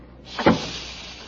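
A door being closed: a soft brushing hiss, then one dull low thump, fairly quiet, with faint hiss lingering after it.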